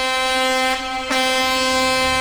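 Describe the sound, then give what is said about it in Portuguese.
A truck's air horn blares in one sustained, harmonic-rich tone for about two seconds, briefly dipping in strength midway before returning at full volume. “Quem tá dormindo acorda na hora com essa buzina do caminhão, viu?”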